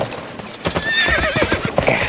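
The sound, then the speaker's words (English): A bucking bronc kicking and pitching, with rapid, uneven hoof thuds and a loud, high neigh rising over the stamping. “The bronc tried to kick and pitch”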